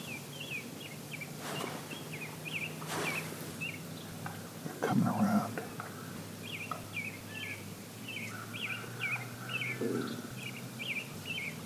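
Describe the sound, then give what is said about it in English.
Chicks calling as three of them approach: a faint, steady run of many short, high peeping chirps. “Folks, I just got three chicks come up on my backside.”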